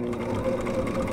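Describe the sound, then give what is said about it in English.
A home sewing machine runs while stitching cloth masks, giving a steady mechanical whir with a fast, even ticking pulse and a constant hum, fairly quiet and alone. “That's the sound of my sewing machine.”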